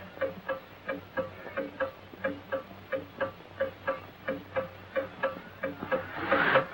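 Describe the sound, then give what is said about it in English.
A pendulum clock ticks in a bedroom at night, giving many even, moderately faint ticks at a steady pace with a soft lower tock in each beat. No one speaks. “Gets out of bed, crosses the room, and stops the pendulum with his hand.”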